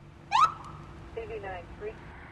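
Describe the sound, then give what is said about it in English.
A traffic enforcement officer's vehicle siren gives one loud, short rising electronic whoop, followed by a few fainter warbling bursts over a low steady background. “Even with flashing lights and a siren, Joe Claybaugh finds it hard to get drivers' attention these days.”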